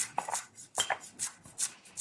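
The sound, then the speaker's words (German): Knife chopping spring onions while preparing street food, a series of short, crisp cuts in an uneven rhythm, each a bright tap with a soft scrape against the board. “Die Frühlingszwiebeln erstmal schneiden.”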